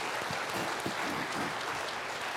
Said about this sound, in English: Yeah, give him a round of applause.